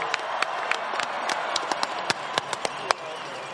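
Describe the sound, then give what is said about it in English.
Applause from a crowd cheering on the Broncos: a steady wash of crowd noise scattered with sharp, distinct individual claps at irregular intervals, with no clear voices. “And we need to cheer them on right now and again.”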